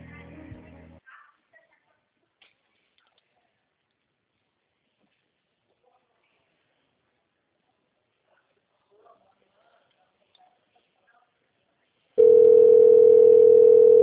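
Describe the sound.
A telephone line tone on a call waiting on hold, a loud steady single-pitched tone that starts abruptly after a long stretch of near silence and holds unchanged to the end.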